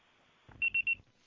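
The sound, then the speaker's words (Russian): A voicemail beep tone on a phone call sounds as three short, high-pitched electronic beeps in quick succession over a faint, low line hiss. “Вызываемый абонент не отвечает. Ваш звонок был переадресован на голосовой почтовый ящик. Можете оставить сообщение после сигнала.”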